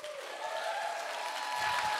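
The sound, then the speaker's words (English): A church audience applauds to welcome a speaker to the stage, with steady, fairly soft clapping that continues throughout without a break. “And so I want to hear all of the amens and hand clappings and yeah, come ons that y'all got tonight. Y'all give him a big warm welcome as he comes to the stage.”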